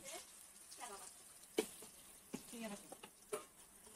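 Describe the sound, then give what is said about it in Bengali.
Potatoes fry in a pan with salt and turmeric, a faint steady sizzle broken by a few sharp clinks and scrapes of stirring. “আলুটা ভাজা ভাজা হয়ে গেছে”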